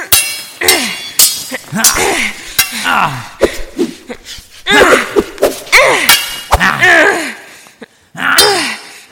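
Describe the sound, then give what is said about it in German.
Swords clash in a fight, with sharp metallic clanks struck at irregular intervals amid strained, effortful vocal sounds. “Minutenlang schlugen die Schwerter aufeinander ein,”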